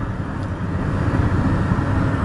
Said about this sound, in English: This program is being produced today from the front seat of Jonathan's old Toyota pickup truck. And it's not the quietest cab you've ever ridden in, but it really is a cool little truck.